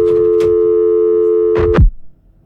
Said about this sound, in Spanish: No, parece que se nos fue la llamada.